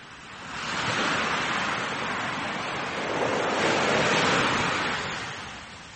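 Sea waves break on the coast in two broad, hissing surges of surf, each swelling and then subsiding, loud and unbroken with no voices.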